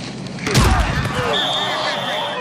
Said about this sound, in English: Bone-crushing collisions between players are just fundamental to pro football,